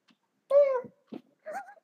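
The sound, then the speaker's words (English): Indoor cats meowing: a loud, tonal meow that falls slightly in pitch, followed by a short, rough chirp and a shorter, wavering meow, with no talk. “Goddamn cats.”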